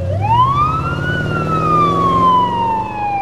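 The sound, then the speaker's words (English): Police car siren wails loudly and continuously, sweeping up in pitch and then sliding slowly back down, with a low vehicle rumble underneath. “Turning on the siren, Renee makes a U-turn.”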